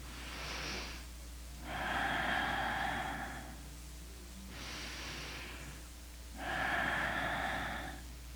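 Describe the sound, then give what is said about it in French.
Audible breathing during a breathing exercise, made while hollowing the abdomen. Four loud, breathy airflow sounds come in a slow alternating rhythm. Two shorter, airier breaths alternate with two longer, fuller breaths that carry a faint tonal edge. No talking. “Il n'est pas nécessaire de faire de bruit en respirant. Le bruit que je fais est uniquement pour vous aider à me suivre.”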